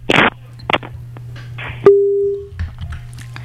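A telephone tone on a call that will not connect: a steady, pure tone held for about half a second, preceded by a few short noise bursts and clicks, with a low line hum underneath throughout.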